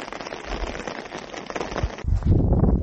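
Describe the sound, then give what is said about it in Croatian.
Rain falls at a ski resort with snow on the ground, a steady dense hiss of drops that turns heavier and lower, with more rumble, for the final second. No voices. “ima snijega, ali pada kiša.”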